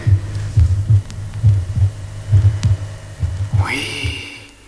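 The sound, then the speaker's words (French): Heartbeat heard at the left chest, fifth intercostal space, with the mitral valves closing: a steady run of paired low thumps, about five beats in regular rhythm over a faint hum. “Ah, je perçois très distinctement le claquement de fermeture des valves mitrales.”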